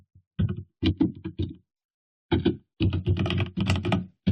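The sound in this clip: Fast typing on a computer keyboard while entering a product search for a MIDI interface: two quick runs of clattering keystrokes, fairly loud and close, separated by a clear pause of under a second.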